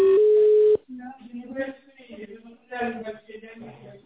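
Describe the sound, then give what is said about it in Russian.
Telephone line tone while a call connects: a single steady electronic tone lasting under a second that cuts off abruptly, followed by a person speaking. “Пожалуйста, оставайтесь на линии. Происходит соединение.”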